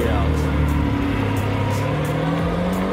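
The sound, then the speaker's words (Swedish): A Lamborghini sports car drives past with a loud, continuous engine roar whose low tone creeps slightly upward across the few seconds. “Oh, shit, det där är ju en riktig jävla värsting Lamborghini. Berätta vad du ser. Ja, men det dyker upp en sån här värsting Lamborghini bakom mig.”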